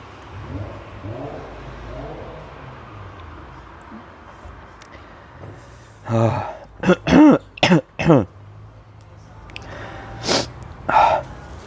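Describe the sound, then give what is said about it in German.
A coughing fit: a tight burst of several harsh, rasping coughs in quick succession, then two more separate coughs after a short pause, loud against a quiet, murmuring background. “Hustenanfall.”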